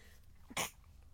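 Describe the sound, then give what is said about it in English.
A single powerful human sneeze, a brief sharp burst preceded by a quick intake of breath, standing out against an otherwise quiet background. “I tried to hold my breath, but that was a powerful sneeze.”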